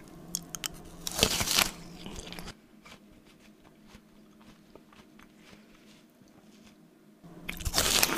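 Crisp crunchy bites into a pear burst out loudly at the start and again at the end, with quieter wet chewing continuing in between.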